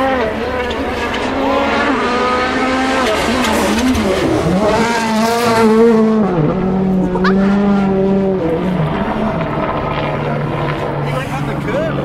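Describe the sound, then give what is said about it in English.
A Hyundai rally car races past on a stage track beneath a limestone crag, its engine roaring loudly and continuously, revving up and down as the pitch sweeps and drops while it passes. “It's one of the Hyundais. Listen.”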